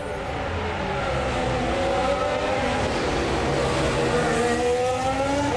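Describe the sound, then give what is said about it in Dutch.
Engine howl from a 2026 Formula One car spinning its rear tyres during practice at the Azerbaijan Grand Prix, a loud, sustained, high-pitched scream whose layered tones waver and climb as the wheels slip. “En ook hier hoor je wielspinnen, het doorslaan van de achterbanden.”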